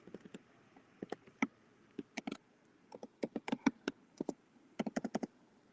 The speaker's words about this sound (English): sorry, I just got to type a message because my lovely assistant must be asleep.